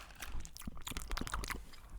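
Someone chews a piece of food with a strong cinnamon flavour, giving busy, moist chewing with many small crunchy clicks and smacks packed closely together.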